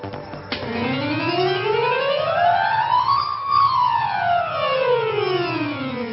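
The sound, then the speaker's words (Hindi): An ambulance siren wails in a hospital setting, one loud, slow sweep that climbs steadily in pitch and then falls away again, with no voices. “Ambulance, अस्पताल का दृश्य।”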